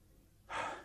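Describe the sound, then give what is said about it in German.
A single short, breathy gust as someone catches their breath after speaking, faint and alone after a quiet pause. “Da muss ich schnaufen zuerst.”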